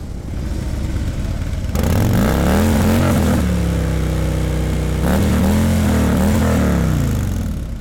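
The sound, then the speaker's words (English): An engine is revved hard. It kicks in loudly after a short quieter stretch, then surges up and settles back in a couple of rising and falling bursts, with a steady rumble between them. “I'm going to rev it, so I'll forewarn you a bit.”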